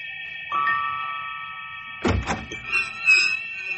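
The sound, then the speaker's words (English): A diamond key opening a locked door: a single heavy clunk from the lock, then a few lighter clicks, all over steady sustained background tones. “Hold on. It's locked. Oh, then we're sunk. Sunk my pilot light. Stand aside there. This diamond key of mine will open any lock.”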